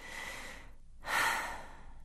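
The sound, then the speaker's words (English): A person takes one slow, deep breath, heard as a soft airy breath, a short silent pause, then a second, louder and fuller breath sound, all fairly quiet with no talking. “Now take a big, deep breath.”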